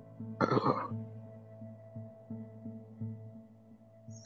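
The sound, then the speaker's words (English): A single big human sneeze bursts out as a sharp, noisy blast lasting about half a second. A low hum with faint repeating pulses runs underneath and continues after it. “Sorry, I just had a really big sneeze.”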